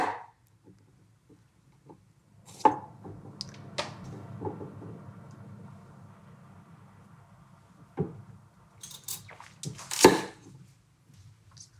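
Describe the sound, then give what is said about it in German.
A knife cuts through a beetroot, splitting it into halves on a board. A few sharp knocks and thuds stand out over a faint low rumble, with no talking. “wenn die rote Beete sehr groß ist, kann ich es auch nochmal teilen. Dann kann ich mir auch mehrere Stücke machen. Ja. Aber wenn sie nicht äh, zu riesig ist, dann schneide ich sie nur in zwei Stücke”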